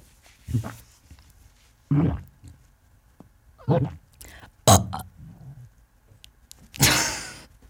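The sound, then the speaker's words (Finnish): Fake burps forced out by a person, a few short guttural bursts separated by quiet pauses, the last one longer and louder than the rest. “kun me ollaan nyt käyty aika paljon pieruista asiaa, niin röyhdyt, onko se susta ällöttäviä? Itse me haluaisin antaa tämmöisen pienen taidon näytteen. Nimittäin, osaatko tehdä tätä?”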